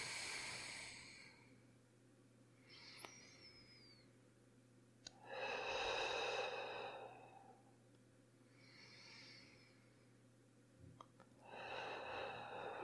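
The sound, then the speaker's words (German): Slow, deep breathing in and out, heard as a few soft, airy swells of breath with quiet pauses between them, faint over a low steady hum. “Und dann atme einfach mal 3-mal tief ein und aus.”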